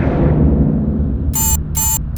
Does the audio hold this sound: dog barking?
no